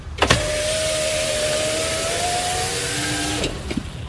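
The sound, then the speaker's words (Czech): A car's electric window closes: a click, then a steady motor whine lasting about three seconds, ending in a firm thunk as the glass seats, with no talk. “Co to sklapí okýnko v autě.”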